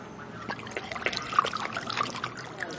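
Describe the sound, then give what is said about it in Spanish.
A drink is poured into a glass at a bar. The liquid gives a steady, bubbly trickling and splashing that lasts under three seconds, heard alone without voices. “En un bar sirven una copa.”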